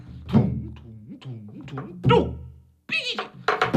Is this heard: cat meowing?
yes